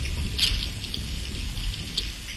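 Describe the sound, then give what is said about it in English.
Herring shoal recorded underwater with a hydrophone: a continuous low watery rumble carries scattered faint crackles and ticking pops, with a brighter cluster near the start. “The whole box was just singing of these sounds. It was just incredible. It was just this cacophony of herring.”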